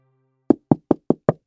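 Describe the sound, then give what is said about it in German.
Knocking on the door of a house: six sharp, even raps in a steady rhythm, loud and alone, after a faint low hum. “Der Zar ist gekommen zum Rufshaus und klappt in die Tür.”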